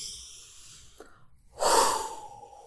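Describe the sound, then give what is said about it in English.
A person breathes in through the nose with a soft, faint inhale, then exhales through the mouth in a longer, louder, airy rush that trails off, with no talking. “So I want you to breathe in through the nose,”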